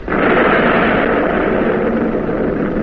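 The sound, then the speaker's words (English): A warship's naval guns fire a salvo at a destroyer, a sudden heavy blast that swells into a dense, rumbling roar and holds loud and steady for nearly three seconds. “Trainer on target. Director 1, on target. Commence firing! Salvo! Salvo! Commence!”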